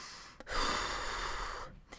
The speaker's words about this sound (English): I need to take a deep breath before I start into the prices.